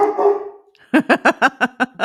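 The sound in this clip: A dog barks seven times in a quick, steady run of loud, sharp barks from a pet that had gone six years without barking.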